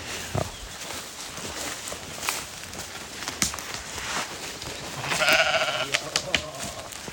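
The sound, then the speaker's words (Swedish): A sheep bleating once, a short wavering call, over a quiet outdoor background with scattered soft taps and clicks. “det är ju får här.”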